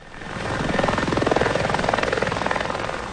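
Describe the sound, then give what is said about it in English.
Helicopters flying over a wildfire in Almeria province, southern Spain, carrying firefighters. A loud, steady rotor thumping with rapid, even blade pulses holds throughout, with no voices. “helicopters buzzed through the air, transporting firefighters who've contained a blaze burning in Almeria province.”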